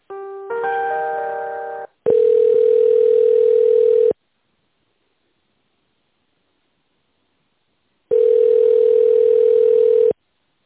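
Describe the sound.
Telephone tones play while an office call is transferred. A brief chord-like tone comes first, then two steady two-second beeps with a long silence between them.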